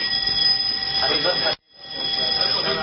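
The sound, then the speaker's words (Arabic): A fire alarm sounds with a steady, piercing electronic tone and high harmonics. It drops out for a moment, then resumes, with faint voices underneath. “انذار حريق يا جماعه ما تخافوش. مفيش حاجه يعني انذار حريق في ايه يعني”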